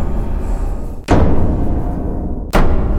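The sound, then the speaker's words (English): Two heavy thuds of a trident banged on the ground, each a sharp, loud impact followed by a sustained low rumble, set against a steady noisy background. “when he banged it on the ground”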